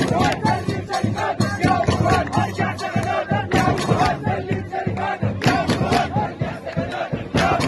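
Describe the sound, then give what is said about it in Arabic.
A large protest crowd in Sudan chants slogans against sharing power with the military, many voices roaring together in loud, rhythmic, repeated bursts. “وفي وسط السودان تظاهر عشرات الآلاف في ولايات الجزيرة وسنار والنيل الأبيض والنيل الأزرق وصد هتافات لا للشراكة مع العسكر ولا للتفاوض”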